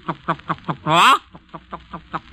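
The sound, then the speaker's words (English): Hens running about pecking at corn cluck in a steady series of short, evenly spaced clucks. One longer, louder drawn-out squawk breaks in partway through before the rhythmic clucking resumes. “the clucking of the hens as they run about picking up a little corn here, a little kernel there, and running about seemingly with nothing else to do but to look for food, and all the time clucking”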